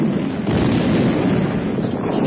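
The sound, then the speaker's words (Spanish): Explosions roar as a heavy, continuous rumble that fills the whole short stretch, loud and dense, with no separate blasts and no voices. “¡No! ¡No más explosiones!”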